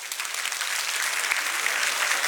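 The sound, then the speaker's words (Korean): Applause from an audience at a talk as partners clap for each other: a steady, dense patter of many hands that holds at an even loudness throughout, with no voices. “짝꿍한테 박수 한번 쳐주세요.”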